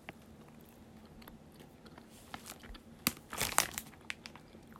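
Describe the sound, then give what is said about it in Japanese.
Crinkling of a wrapper and crunchy chewing as another sour sweet is unwrapped and eaten. Soft, scattered rustles build to a louder cluster of crinkles and bites, with no talk. “でもね、程よく酸っぱくて美味しいです。もう一個食べちゃおうかな。”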